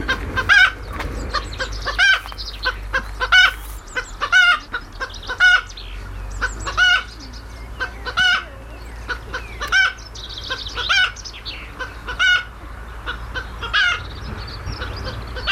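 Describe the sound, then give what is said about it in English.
A chicken clucks over and over in short, throaty bursts at a fairly regular rhythm. Many loud clucks rise above a low background hum. “This is the sound of a chicken.”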